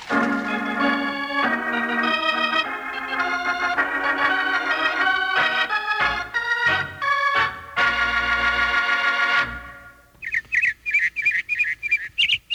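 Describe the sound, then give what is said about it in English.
A robin singing in spring: bright, high chirping phrases repeat in quick bursts near the end, after a longer passage of sustained music. “Hear that, Charlie? That's a robin singing.”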